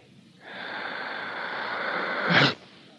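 A deep breath drawn in and held under a dark hood filled with fumes: a steady airy rush of about two seconds that swells slightly, then cuts off abruptly into quiet.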